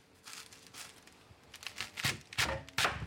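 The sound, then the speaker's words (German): Knife halving pieces on a cutting board: a few faint knocks and scrapes, then three louder chopping thuds close together near the end. “Da habe ich jetzt die Stücke gerade. Dann tue ich das halbieren.”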